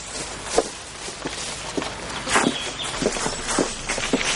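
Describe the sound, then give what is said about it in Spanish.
Footsteps of a man and a child walking hand in hand along a path, a steady series of soft, evenly spaced steps at walking pace, with no voices. “En otro momento, camina por un sendero de la mano de su padre.”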